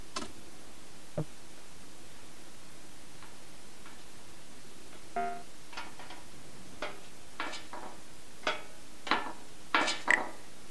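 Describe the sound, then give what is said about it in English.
Faint, irregular clicks and taps of something rattling, like a loose screw being felt for by hand. The ticks grow more frequent and sharper toward the end. “I hear some rattling. If I feel around, I might be able to locate where that noise is coming from.”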